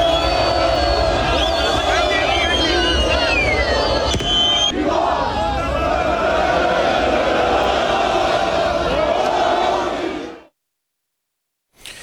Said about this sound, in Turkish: Avrupa'nın birçok kentinde de Galatasaray'ın şampiyonluğu için kutlamalar yapıldı. Taraftarlar şampiyonluk şarkıları söyledi.